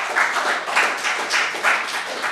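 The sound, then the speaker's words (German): Audience applause at the close of a talk: dense, steady clapping that fills the whole clip, with a gentle rhythmic swell in loudness and no voices. “dann bitte ich nochmal um einen Applaus abschließend.”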